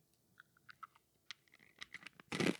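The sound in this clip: Chewing food while tasting it, heard as faint, crunchy mouth sounds. Many small irregular clicks build to a louder crunchy burst near the end, with no talking.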